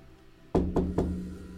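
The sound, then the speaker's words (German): Three heavy knocks from a door knocker striking a door, evenly spaced and loud, each a low, solid thud that rings briefly before the next, with nothing else following. “Du lässt den äh, Türklopfer an die Tür äh, klopfen und es regt sich nichts.”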